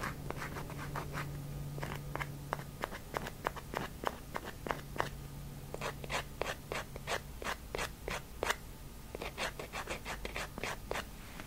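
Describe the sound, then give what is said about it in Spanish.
A nail file rasps across fingernails in an ASMR session, with many short crisp strokes in quick rhythmic bursts separated by brief pauses, soft and alone with no talk. “Aquí tengo la lima, así que te voy a limar las uñas.”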